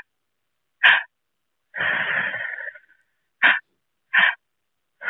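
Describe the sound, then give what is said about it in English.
Breathing exercise on the floor: a three-part breath drawn into the belly, then the chest, then let out through the mouth. Short, breathy bursts stand alone around one longer, rougher airy breath in the middle. “So I breathe in my belly and then into my chest and then out of my mouth. And so it sounds a little something like this.”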